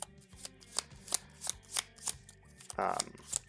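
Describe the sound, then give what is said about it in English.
A deck of cards is shuffled during a tabletop card game with quick, rhythmic riffling. Many crisp bursts come in a steady patter, with one longer, denser shuffle near the end. “Shuffle everything up.”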